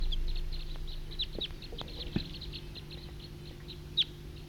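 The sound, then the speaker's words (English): Wild bird calls: many short, high chirps repeat over a steady low hum, faint throughout, with a couple of sharper calls standing out. “Wild bird. Wild.”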